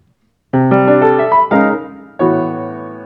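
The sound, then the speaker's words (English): A short passage of music is built from chords stacked in fifths, with several struck chords in quick succession. After a brief pause, a final loud, open-sounding chord rings out and slowly fades. “Or if we wanted to build chords in fifths and had some kind of music going on in fifths, then it would sound like this.”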